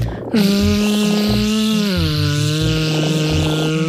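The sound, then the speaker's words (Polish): A voice imitates the buzzing of a wasp, fly or airplane with a steady, loud, nasal drone on a low hum. It dips slightly in pitch halfway through and carries faint rhythmic fluttering underneath. “to może być osa, albo nawet mucha, albo samolot, a może jadący samochód.”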